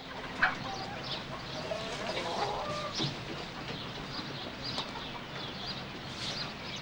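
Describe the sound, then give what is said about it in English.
Hens clucking in a hen house, with scattered soft clucks and brief squawks over steady background noise. “Book steps towards the hen house. Through the wire mesh door, he sees Rachel collecting the eggs”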